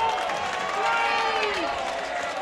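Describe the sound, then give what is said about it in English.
Baseball crowd at a Kannapolis game growing rowdy, with the home team trailing by two, two runners on and one out on a 3-0 count. A loud, steady roar of murmuring and cheering is heard, with a voice rising briefly above it. “This crowd here certainly getting a little more rambunctious.”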